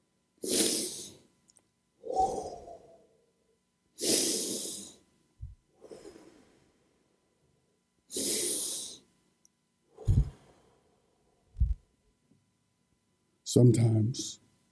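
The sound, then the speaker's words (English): Three slow, deep breaths: long, breathy inhales and exhales alternate in a steady rhythm, with quiet pauses between them. “Would you take three breaths with me? Three really good deep breaths. Here we go.”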